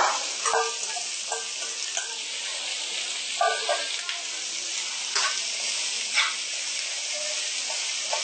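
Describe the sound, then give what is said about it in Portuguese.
Onion and leek sweating in a pan give off a steady, continuous sizzle, with a few light ticks from stirring scattered through the hiss. “Ela dá uma suadinha, pode colocar o alho poró também.”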